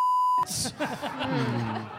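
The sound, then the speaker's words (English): A single censor bleep, a steady high-pitched tone, sounds for under half a second and cuts off abruptly. Talk follows straight after. “Beep the name out.”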